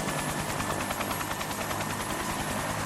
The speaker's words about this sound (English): That's the sound of a helicopter